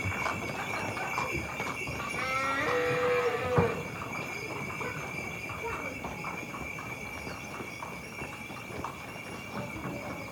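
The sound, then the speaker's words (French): A cart passes close by with a steady clip-clop of hooves running throughout. Voices come and go over the rolling, clattering hoofbeats. “Attention, chariot. Merci beaucoup. Elle est passée près, la charrette.”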